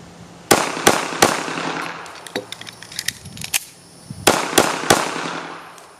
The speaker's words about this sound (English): we ended up going to the range together, which was awesome. Right in the head. Damn. Oh, nice shot.